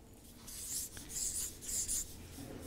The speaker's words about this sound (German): ich schreibe es nochmal hier hin